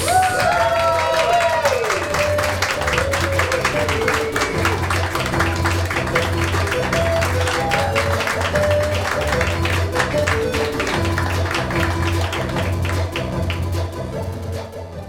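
Studio audience applause welcomes contestants onto a nerd quiz show's Star Wars special, a dense, steady clatter of many hands that holds throughout with music playing underneath.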